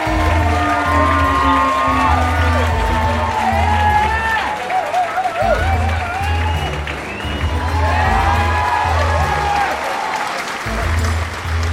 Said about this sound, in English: Now, put your hands together for our host with the most, keeper of books, wearer of glasses, it's the man with an answer for everything, Kieran Hurley!